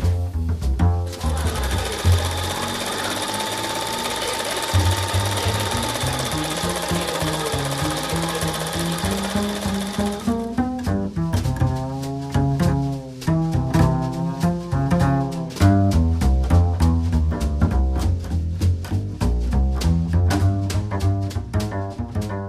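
A sewing machine stitches at a community sewing group in Gdynia's Oksywie district, giving a rapid, steady mechanical chatter throughout, with other tonal sounds layered over the rhythmic stitching in the second half.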